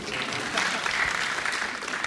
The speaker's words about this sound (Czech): Thank you very much. You shouldn't have clapped.